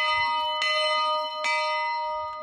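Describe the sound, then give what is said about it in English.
An old schoolhouse bell from 1900, hung at a boys' summer camp, rings with a sustained metallic hum of layered overtones, punctuated by two distinct clanging strikes that keep the tone shimmering throughout. “When Boys Camp imported this bell from a 1900 schoolhouse, it was a big deal. Finally, we had a bell that could compete across camp.”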